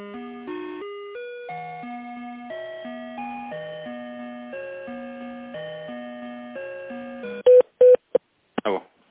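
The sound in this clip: Telephone hold tones play while a call is transferred to a manager: a simple electronic melody of stepped, pitched notes, then a few loud, short beeps near the end.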